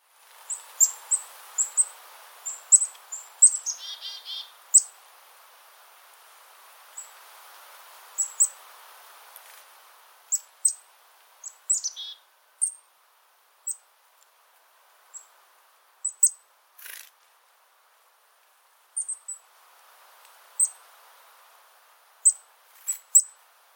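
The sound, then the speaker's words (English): Black-throated blue warbler song: many short, high-pitched chirps and buzzy notes in scattered bursts, with brief pauses between phrases, over faint low background hiss. “Black-throated blue warbler.”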